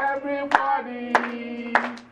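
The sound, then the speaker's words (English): Hands clapping, three sharp claps at an even pace over a sustained tonal melody. “Everybody, clap your hands.”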